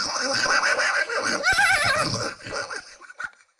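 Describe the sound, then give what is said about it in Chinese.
A herd of horses on a mountain road gives loud, high, wavering whinnies over a dense noisy rumble; one sharp neigh stands out in the middle before the sound thins and fades out. “就在这个时候，突然间听到远方一大片马蹄之声”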